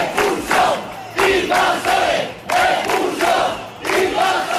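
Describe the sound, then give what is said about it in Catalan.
Protesters near a migrant settlement in Ceuta, held back by a police cordon, chant a slogan in unison. A loud crowd repeats the same short rhythmic phrase again and again with brief gaps between. “Un cordó policial va tornar a impedir que els manifestants s'acostessin a l'assentament de persones migrants i, de nou, s'hi van sentir proclames com aquesta.”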